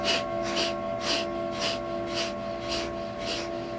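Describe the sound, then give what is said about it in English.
Breath of fire: rapid, rhythmic breathing in and out through the nose while pumping the navel. The sharp, evenly spaced puffs come about twice a second and stay loud and steady throughout. “And breath of fire is a rhythmic breathing in and out of the nose. And we're pumping the navel as we breathe. It sounds like this.”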